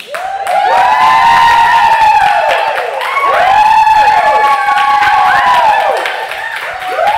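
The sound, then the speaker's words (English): Audience cheering and whooping as a show ends. Many voices rise in a loud, sustained roar that swells twice, with wavering calls on top. “Maybe we end with the cheer and then mix in the field recording.”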